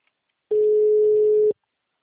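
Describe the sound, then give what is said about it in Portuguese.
A phone line tone after a dropped call: one steady, mid-pitched beep lasting about a second, set alone in silence. “a ligação caiu.”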